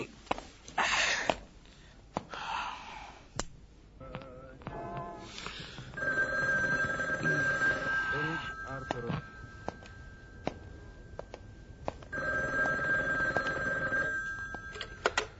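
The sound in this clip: A telephone bell rings in two long bursts of about two and a half seconds each, separated by a pause. Soft scattered sounds fill the quiet stretches between the rings.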